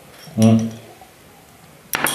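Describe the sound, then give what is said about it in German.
A glass bottle with a marble stopper is tipped to pour from it, giving a brief, sharp glassy clink near the end after a short vocal sound. “Gerade gegen Ende wird es tatsächlich schwierig, was aus der Flasche rauszukriegen.”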